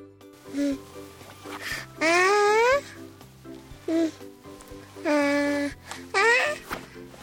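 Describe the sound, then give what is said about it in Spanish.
A Spanish baby babbling in a few separate bursts of voiced, tonal cries and coos, several sliding upward in pitch, with short pauses between them. “Y ahora vamos a escuchar a un bebé español.”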